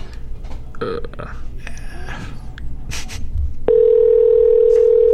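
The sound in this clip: Ringback tone of an outgoing telephone call: muffled handling noises and breaths come first, then a loud, steady mid-pitched tone sets in and holds unbroken to the end.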